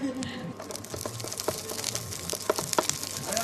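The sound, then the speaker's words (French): Wild asparagus frying in a pan with a little salt gives a faint, steady sizzle scattered with small crackles and pops. “Voilà, c'était le bruit de l'asperge sauvage en train de cuire ici au pêcheur de sable.”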